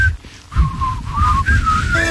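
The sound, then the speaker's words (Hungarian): A person whistles a short imitation of a call, gliding through several wavering notes that bend up and down. A low rumbling background runs underneath the whistle. “tekerjétek le az autók ablakát, és fütyüljetek oda”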